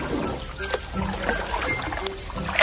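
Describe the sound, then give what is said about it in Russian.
Water sloshing and lapping around a small boat as it drifts up, a steady, fairly loud wash of splashing with no voices. “Так он сидел и укорял себя, а незаметно подплыла лодка с его женой и детьми.”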